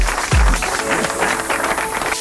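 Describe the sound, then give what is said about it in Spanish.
Applause welcoming back a returning fan: a loud, dense wash of clapping that runs continuously, with a low thump near the start. “Dale un aplauso para que no se vaya.”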